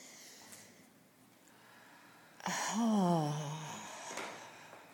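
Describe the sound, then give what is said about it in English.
A deep cleansing breath from a guided relaxation exercise: a quiet intake, then a loud voiced sighing exhale whose pitch slowly falls before it fades. “And join me in a nice deep cleansing breath.”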